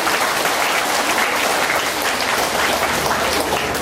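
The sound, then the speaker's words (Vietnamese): An audience at a Buddhist retreat breaks into applause: a thick, unbroken wash of clapping that holds at a steady, fairly loud level for nearly four seconds, with no talk over it. “Phật tử bên Úc đưa tay lên, xin cho Phật tử bên Úc cho một tràng pháo tay.”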